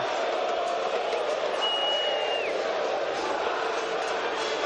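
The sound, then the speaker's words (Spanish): Football crowd at Independiente's stadium during a match, a dense, steady roar of many voices that stays at an even level throughout. “Escucha el ambiente por Continental.”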